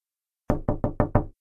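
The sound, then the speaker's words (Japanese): Five heavy knocks on a door in a quick, even rhythm. Each blow is deep and booming, with nothing else heard around them. “夢の中でドーンドーン扉を叩く音がする。”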